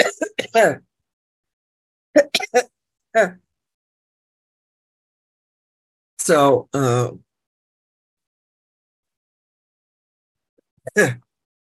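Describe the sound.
Throat clearing from a person with a tickle in the throat: a few short, raspy vocal bursts separated by silent gaps, fairly loud and with no talk between them.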